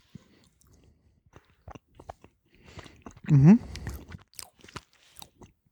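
Someone chews sheep's milk cheese from La Mancha, producing soft, scattered crunchy mouth sounds with a few short clicks. A louder burst comes midway, joined by a brief voiced murmur, and the chewing then continues faintly.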